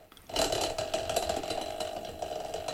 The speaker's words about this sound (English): So I'm going to spin the wheel.